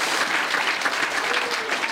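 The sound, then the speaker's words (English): Audience applause at a lively live show with drinks being served, a thick, continuous roar of many hands clapping that holds a steady level throughout. “Give her a big round of applause.”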